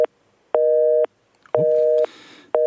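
Telephone busy signal after a call drops: loud, steady beeping tones in an even on-off rhythm of about half a second each, with two full tones and partial tones at the start and end.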